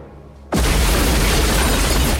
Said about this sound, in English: A huge fiery blast to the right of the restaurant creates havoc.